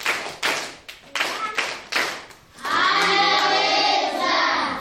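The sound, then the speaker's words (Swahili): Loud hand clapping for a teacher who quizzed children at a Christian gathering, several sharp bursts in an uneven beat, then the clapping stops and a voice takes over. “Niombe tumpongeze mwalimu aliyekuwa anauliza maswali, tupige makofi kwa sauti.”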